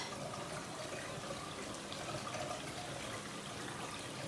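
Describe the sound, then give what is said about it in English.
Water pours from a tap into a filling bathtub, a steady, quiet, unbroken rush of splashing noise throughout, with no voices. “The bath is going to take a while to fill.”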